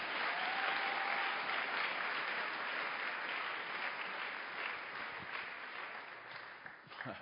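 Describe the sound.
A church audience bursts into sustained applause during a worship service, a dense, even wash of clapping that holds strong before gradually thinning and fading near the end.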